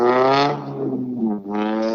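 A race car driving off: a loud, buzzing engine note that sinks and softens briefly in the middle, then surges back strongly at a higher pitch.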